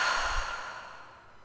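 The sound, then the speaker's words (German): A deep, slow breath out through the mouth after a breath in through the nose, heard as a soft, airy sigh that starts fairly strong and gradually fades away, alone and quiet. “Und dann atme hier nochmal tief durch die Nase ein und durch den Mund aus.”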